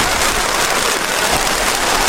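Steady rain falling, a dense, even hiss of drops that holds at one level for the whole two seconds, with no talk over it.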